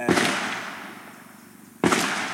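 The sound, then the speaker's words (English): Two sharp gunshot bangs about two seconds apart, each loud and sudden, followed by a long, slowly fading rumbling tail. No voices are heard. “In the middle of our conversation, two gunshots ring out. The shots are a reminder that this isn't summer camp.”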